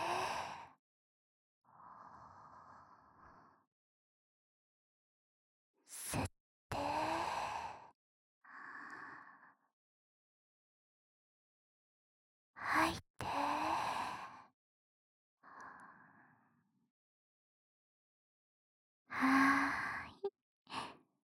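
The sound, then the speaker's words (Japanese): Slow, deep breathing: several cycles of a sharp airy inhale followed by a softer, longer sighing exhale, each cycle separated by seconds of silence. “ほーら、深呼吸よ。吸って、吐いて。”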